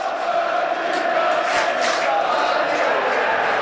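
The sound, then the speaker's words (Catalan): A stadium crowd rises as a football match ends, a sustained, loud roar of many voices that stays fairly even throughout. “Mira, s'acaba el partit i el públic s'aixeca.”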